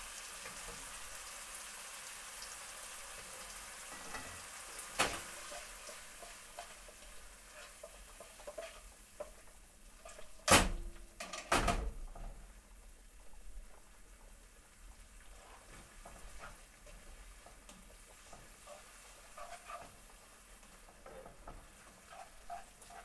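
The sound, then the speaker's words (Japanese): Hissing sizzle of a pan on high heat as a little pasta cooking water is added and the pan is shaken. A steady, soft frying hiss runs throughout, broken by a few sharp metallic knocks. “茹で汁を少し入れて強火にしてよく振りましょう。”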